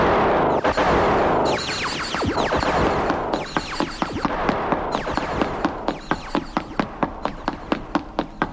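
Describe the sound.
Sound-effect gunfire: many sharp, loud cracks in quick, slightly irregular succession. They form a dense volley throughout, with no voices over them.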